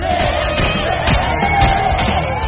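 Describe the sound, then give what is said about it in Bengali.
Intoxicated spectators shout excitedly at a hologram fight, a continuous roar of many voices punctuated by loud yells and whoops, rising and falling in bursts. “Hologram fight শুরু হতেই নেশাতুর মানুষগুলো হাত পা ছুঁড়ে চিৎকার করতে”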